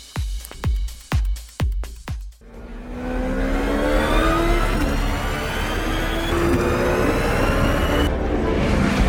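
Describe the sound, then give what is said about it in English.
Roar of a street-legal supercar engine, a car capable of 253 miles an hour that set a lap record at the Laguna Seca racetrack: a few sharp bangs, then a loud sustained roar whose pitch climbs steadily. “That's the roar of a street-legal supercar that can reach 253 miles an hour and set a new lap record at the Laguna Seca racetrack.”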